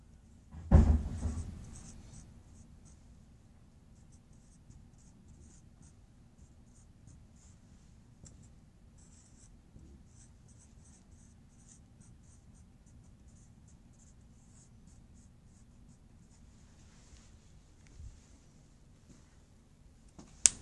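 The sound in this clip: Pen scratching as someone writes by hand: soft, continuous scratchy strokes that run for about twenty seconds. A louder knock comes near the start, and a few small taps and scrapes follow later.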